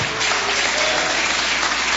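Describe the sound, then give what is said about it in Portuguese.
A church audience claps joyfully, a dense, steady wash of applause that continues without a break from start to finish. “vamos já receber o servo de Deus com aquelas palmas bem alegres para Jesus.”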